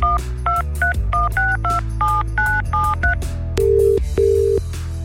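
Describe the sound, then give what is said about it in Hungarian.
A telephone number being dialed with DTMF tones: a rapid run of short, two-note keypad beeps, followed by two longer, lower steady tones. “úgyhogy tárcsázzuk is”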